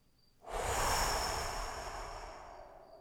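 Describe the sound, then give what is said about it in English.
A deep breath in a guided breathing exercise: a single long, airy rush of breath that starts abruptly, then slowly fades over about two and a half seconds. It is fairly quiet, with nothing else heard. “Last breath all the way back in. Big inhale and blow”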